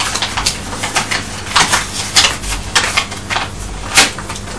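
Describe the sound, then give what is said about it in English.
A paper envelope is ripped open and handled, giving a run of crisp, irregular tearing and crackling bursts over several seconds, with no voices. “Pull that top bit there and you can get the letter out. You'll have to rip the envelope then.”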